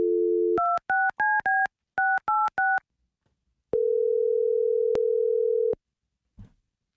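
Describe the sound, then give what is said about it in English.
A telephone sounds a steady dial tone while a call is placed. A quick run of keypad tones follows in two bursts, then one long steady tone and a brief click at the end. No voices are heard. “we're going to call up Avery right now, okay?”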